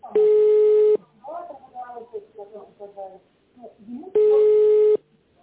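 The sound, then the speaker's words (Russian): Two long, steady ringback tones from an outgoing telephone call, one at the start and one near the end, with a voice talking in the gap between them. “Сейчас я звоню.”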